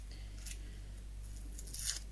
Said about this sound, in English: So now I'm just going to take off the outer papery layer, like so, and that's coming away very easily.